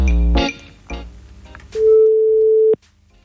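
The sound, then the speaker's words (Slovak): A telephone ringback tone from an outgoing call: one steady, mid-pitched beep lasting about a second, after a brief jumble of other sounds. “Dobre, voláme Igora Hraška, voláme.”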